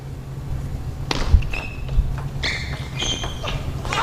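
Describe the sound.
Table tennis play with a backhand serve and the ball clipping the table edge: a few sharp, light clicks of ball contact, with high, brief squeaks and a low background hum.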